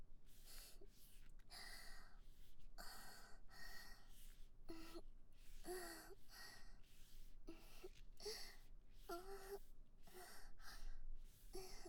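Heavy breathing from a person taking big gulps of air: many deep, faint, breathy inhales and exhales that repeat at a fairly steady rhythm, with a few snorting and sighing tones.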